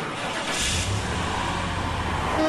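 A car engine starts and keeps running: a steady, fairly loud mid-low rumble that holds evenly for the whole stretch, with no voices.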